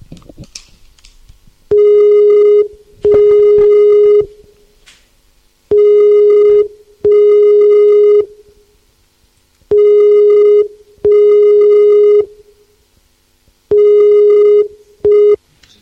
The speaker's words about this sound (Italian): Ti videochiamo. Non fa un cazzo, ecco. Ti sto chiamando